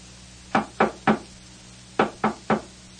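Knocking on a door: six sharp, loud raps in two evenly spaced groups of three, with a short pause between the groups, against a quiet background.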